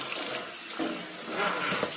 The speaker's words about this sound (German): Das Brettchen waschen wir jetzt mal kurz ab. Okay, ja, kann man machen. Also gehen wir kurz mit dem Wasser drüber.